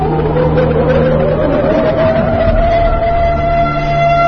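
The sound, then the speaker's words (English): An air raid siren wails through the whole stretch as a steady, loud, high tone that creeps slightly upward, layered over dense background noise with no pauses. “There's an unidentifiable noise washing her out. I don't know who that. It plays throughout the recording at a high frequency, suggesting an air raid siren of some sort.”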